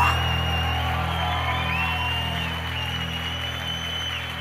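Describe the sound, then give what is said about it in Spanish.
Loud applause and cheering from a heavy metal concert crowd for a band member, a continuous roar of clapping and shouts over sustained low tones that stays strong throughout. “Mr. Pepe Herrero, ¡fuerte aplauso!”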